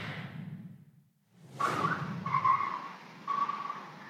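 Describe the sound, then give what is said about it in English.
Tires skid as a car slides sideways after clipping two parked cars, captured by a Ring camera. Faint noise and a brief lull lead into a loud, sustained screech that surges in a few pulses. “A suspected drunk driver clips two parked cars before skidding sideways,”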